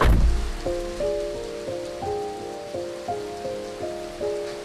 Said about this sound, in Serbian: K vragu i kiša i blato.